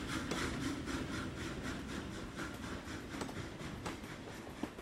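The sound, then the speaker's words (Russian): A moving train gives off a steady, even rumble and vibration, with faint regular clicks running through the continuous drone. “Мы едва ощущали движение поезда. На легкую равномерную вибрацию все скоро просто перестали обращать внимание.”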